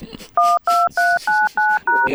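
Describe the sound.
Six evenly spaced touch-tone beeps as a telephone is dialed to place a call, each a short, steady two-pitch tone separated by brief silent gaps.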